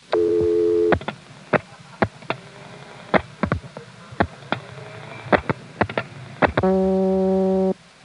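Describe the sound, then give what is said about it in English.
A 1973 telephone exchange dial speed checker, reached by dialing 49 and then 94, sounds a steady buzzy harmonic tone, then a run of many sharp, irregularly spaced clicks, and finally the same tone again. “Here's the October 73 recording of the dial speed checker, arguably a slightly better recording than the June one. This was reached by dialing 49 and then 94 to go into it directly.”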